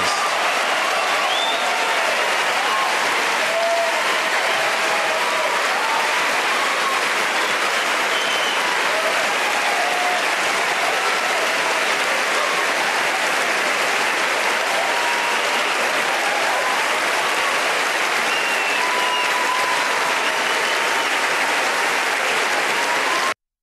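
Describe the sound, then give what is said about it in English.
Sustained applause from an audience at a film awards ceremony, with dense, steady clapping that stays loud and even for the whole stretch and has no talk over it. “look at how they applaud him”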